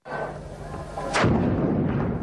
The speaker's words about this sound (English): The explosion went off mid-morning as Yemen TV was broadcasting the military parade rehearsal live from central Sana'a.